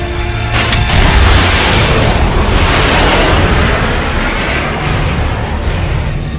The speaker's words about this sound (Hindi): जवानों एक मिसाइल बगैर किसी टारगेट के उस इलाके पर फायर करो। 1 2 3 फायर।